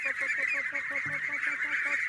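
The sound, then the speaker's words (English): Larger ducklings call as they waddle down a wooden ramp out of a shed, giving rapid, evenly spaced nasal honks over a steady shrill tone. “The ducklings, now much larger, waddle down a wooden ramp out of the shed.”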